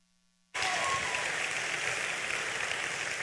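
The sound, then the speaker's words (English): A church audience bursts into applause welcoming a pastor. After a short near-silence the clapping starts abruptly and stays dense, steady and loud to the end. “So Heartland Church, put your hands together. Give a warm welcome to Pastor Bryan Bigger.”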